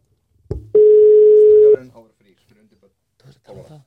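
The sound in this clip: Outgoing phone call ringing tone: one steady, clear ring burst of about a second, followed by voices talking.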